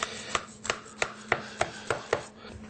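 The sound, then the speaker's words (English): Knife slicing through a potato kugel, seven crisp, evenly spaced cuts striking in a steady rhythm, with no voices. “here's our kugel, potato kugel. Slicing, slicing, slicing, slicing, slicing.”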